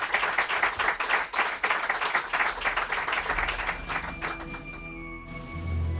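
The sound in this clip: A radio studio audience applauds a guest in recognition of a year together on the show. Dense, rapid clapping fills the first few seconds, then thins and fades into quieter tones.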